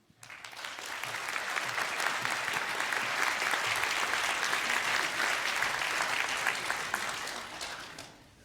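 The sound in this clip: Audience applause welcoming two speakers: a dense, steady patter of many clapping hands that swells quickly, holds evenly for about seven seconds, then fades out.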